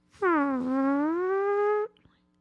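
A single long fart, a smooth, tonal blare whose pitch dips briefly, then rises slowly and holds before cutting off abruptly, heard alone.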